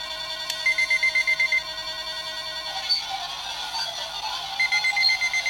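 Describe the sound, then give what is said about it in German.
An alarm clock rings in fast, regular electronic beeps. The pulsing breaks off midway into a smeared sustained tone with scattered high chirps, then the rapid beeping resumes. “Du mach ich einfach meinen Wecker an.”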